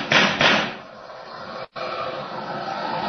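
Gunshots fired by a police officer at a car: two loud, noisy cracks in quick succession, then steady hiss.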